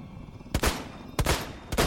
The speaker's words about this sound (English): firearm rang loud as three shots were fired into its back.